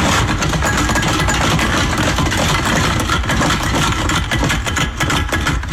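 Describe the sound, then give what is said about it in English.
Recycling bottles shaken inside recycling bags at home make a dense, continuous rattling clatter that stays loud and steady for about six seconds, with no voices. “It is recycling bottles being shaken in my recycling bags at home.”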